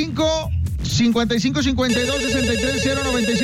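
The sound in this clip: A telephone rings for an incoming call. A steady electronic ringing tone enters partway through and holds over music and talking voices.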